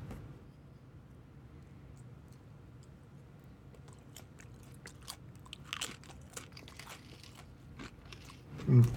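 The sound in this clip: Biting and crunching into a chip heavily coated with topping: many faint, crisp cracks and chewing sounds that grow denser, ending in one louder crunch.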